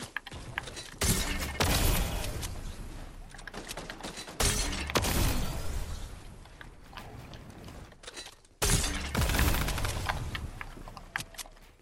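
Gunshots in the Fortnite video game: a few loud, sharp bursts spaced several seconds apart, each with a long, noisy decaying tail and busy mechanical clatter in between.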